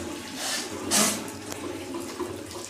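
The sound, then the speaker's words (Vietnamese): Water pours and splashes as it is scooped for washing the nose during Islamic ablution, coming in a few soft running bursts, with one louder gush near the start and no talk. “Xong rồi lấy nước này này, mình hít vô mũi chút thôi, hít rồi mình sạch, mình rửa mũi vậy.”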